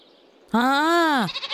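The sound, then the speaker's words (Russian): A goat and her kid bleat: one loud, nasal, drawn-out bleat whose pitch rises then falls, followed by a shorter, wavering, quavering call. “Гляди, кто нас провожать вышел. Это кто? Коза Машка и козленок Федька.”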